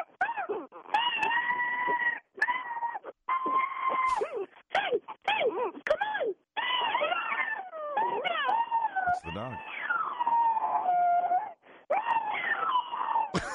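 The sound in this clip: A dog howls along with a woman singing, the two blending into long, wavering tones that rise and fall in many loud phrases, separated by short pauses.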